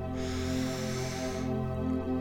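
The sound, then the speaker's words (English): A long, deep breath drawn in through the nose or mouth, a soft airy hiss lasting just over a second over a steady, sustained musical drone that continues afterward. “Taking a big deep breath in”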